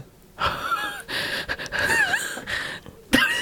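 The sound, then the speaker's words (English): Unsteady, shaky breathing while crying, with a few wheezy gasps and trembling inhales. The breaths are uneven and rise to a sharp, loud gasp at the very end. “It's my unsteady breath.”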